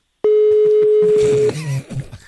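A telephone call is being placed: a single steady electronic tone holds for just over a second, then gives way to low, uneven rumbling sounds.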